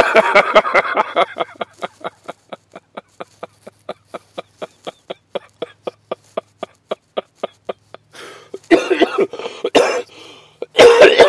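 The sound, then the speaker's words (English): Coughing fit: one long run of many short, sharp coughs in a steady rhythm, with heavier, denser bursts at the start and again near the end, loud and alone without talk. “pardon me for the cough”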